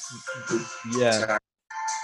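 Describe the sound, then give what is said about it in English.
A mobile phone ringtone sounds during a call, a bright melodic run of electronic tones that stops briefly, then starts again. “That's fine. I got a phone call there. I'm going to mute my phone.”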